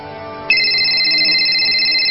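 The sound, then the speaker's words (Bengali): A phone rings with an incoming call: a bright, steady electronic ringtone tone starts abruptly and holds loud without a break, after a softer tonal hum. “এই aunty phone দিছে।”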